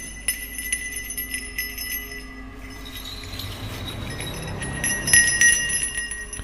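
A small hand bell shaken gently during a ritual at an altar table with incense: light, high tinkling with sustained shimmering tones, and a brighter ring near the end.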